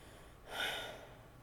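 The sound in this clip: A single deep breath, taken late at night while trying to calm down, swells into a soft airy rush and fades slowly. It is quiet and alone, with no talk.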